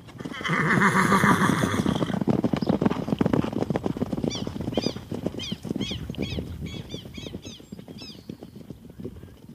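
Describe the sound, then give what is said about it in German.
Horses neigh and hooves clip-clop as riders set off, with a burst of whinnying at the start followed by a long run of rapid, busy hoofbeats and further high whinnies. “Aufsitzen, Deputy. Wir reiten nach Plemensville.”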